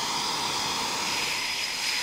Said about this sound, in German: 10 bis 15 Minuten stehen die Jets jetzt hier noch mit laufenden Triebwerken. Sie warten auf das Zeitfenster zum Start.